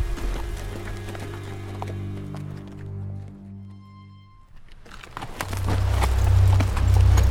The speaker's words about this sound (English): West of Fury, riding at a slow jog and taking his time, Teddy Gunderson rode through the desert brush